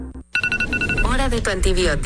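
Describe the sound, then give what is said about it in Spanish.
A mobile phone ringtone plays a few short, bright electronic beeps at a fixed pitch, then a voice speaks over it. “Si tu celular suena así, tu intestino puede sonar así.”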